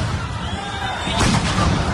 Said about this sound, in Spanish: Bueno, vemos cómo empezaron a tirar gases.